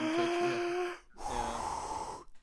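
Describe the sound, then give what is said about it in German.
A person breathing out in two long, audible exhalations separated by a brief pause; the first has a hoarse, tonal edge and the second is breathier and more ragged. “Das ist wahrscheinlich ausatmen, ne? Ja, so atme ich immer.”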